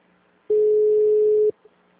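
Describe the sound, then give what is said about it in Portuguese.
A telephone busy signal sounds as one steady, mid-pitched electronic tone that lasts about a second, alone with no talk. “Alô? O número está ocupado.”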